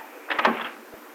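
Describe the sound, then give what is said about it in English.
Door being closed onto a porch: a short, fairly soft rattle and bump made of a few overlapping knocks, with a faint hiss before and after. “I'll close the door up”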